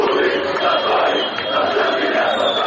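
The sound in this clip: Football fans chanting after an Armenia–Albania national team match, a dense, loud roar of many voices that holds steady with only a brief dip midway.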